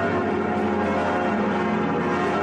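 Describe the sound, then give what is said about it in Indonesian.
Cathedral bells ring from the south tower, where they were replaced to give a more harmonious sound. A dense, sustained wash of overlapping ringing tones holds steady, with no single strokes standing out. “mengganti lonceng-lonceng di menara selatannya beberapa tahun silam untuk menghasilkan suara yang lebih indah dan selaras.”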